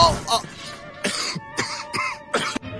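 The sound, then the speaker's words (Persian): Coughing: a rapid series of loud, harsh coughs comes in several bursts, heard on its own without talk. “وای با سرفه توفان رو انداختی.”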